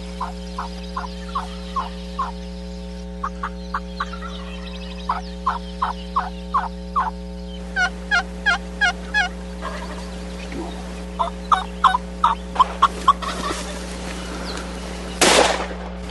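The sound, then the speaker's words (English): Wild turkey gobbling during a hunt in Hawaii at about 7,000 feet: many short rattling gobbles in quick rhythmic clusters, moderately loud, over a low steady hum, ending with one sharp, loud blast. “Turkey flopper. Hawaiian turkey.”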